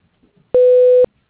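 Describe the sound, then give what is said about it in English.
Voicemail tone: one steady, unwavering electronic beep lasting about half a second, sounding alone between quiet moments. “Please leave a message at the tone, and I will get back to you as soon as possible.”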